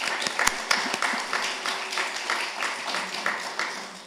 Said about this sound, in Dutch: Dat verdient toch een applausje.